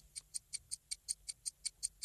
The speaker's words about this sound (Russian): Время тик-так.